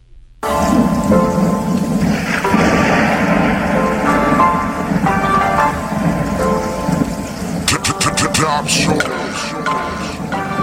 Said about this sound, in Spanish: Desde la ventana de una habitación, un hombre normal ve como la lluvia cae en la ciudad.